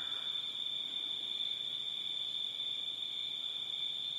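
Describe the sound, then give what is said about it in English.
Crickets chirp in a continuous, high, shimmering trill that stays faint and unbroken throughout, with no voices. “The sound of the crickets”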